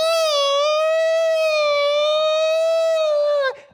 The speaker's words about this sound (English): the siren, the whambulance is coming, right?